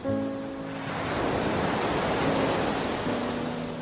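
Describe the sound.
Ocean waves wash up on a beach in a broad, hissing rush of surf that swells gradually and then holds as a steady wash of water, with no voices.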